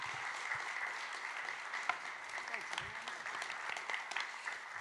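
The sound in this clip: An audience applauding to welcome a speaker onto the stage: a steady, fairly faint wash of many hands clapping together, with a few sharper claps standing out from the even rattle.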